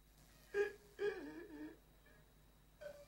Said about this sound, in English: He lies curled up on the floor, sobbing.